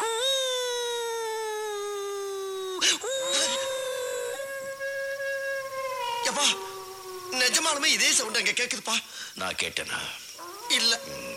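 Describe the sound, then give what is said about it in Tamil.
A dog howls in the distance with a few long, drawn-out wailing tones that sag slightly in pitch, followed by shorter, broken and wavering cries. “தூரத்துல ஒரு நாய்”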